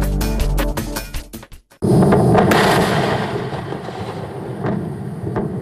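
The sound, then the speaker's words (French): A Falcon 9 rocket explodes on the launch pad at Cape Canaveral: a rapid run of sharp cracks, a brief gap, then a sudden, heavy rumbling roar that lingers and slowly fades. “L'explosion a eu lieu le 1er septembre dernier sur le pas de tir de Cap Canaveral. En quelques secondes, la fusée Falcon 9 s'est désintégrée”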